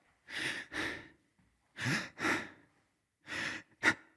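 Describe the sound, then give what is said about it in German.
Slow, deliberate breaths in and out during a calm meditation, six soft airy breaths heard alone in three inhale-exhale pairs with pauses between, the last one shorter and sharper. “Einatmen, ausatmen, lächeln.”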